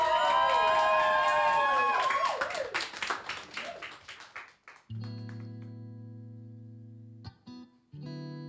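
An audience applauds and cheers loudly for performers at a live show. The clapping thins out and fades, and sustained electronic tones follow.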